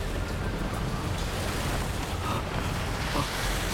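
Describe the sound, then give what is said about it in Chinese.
Storm wind and waves at sea heard from a sailing boat: a steady, unbroken roar of wind and surging water that holds an even level throughout. “我们必须找个地方避开风暴。”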